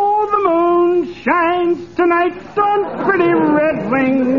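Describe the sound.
Fibber McGee singing in a bathtub: a man croons a few drawn-out, wavering sung phrases alone, loud and clear with short breaths between lines.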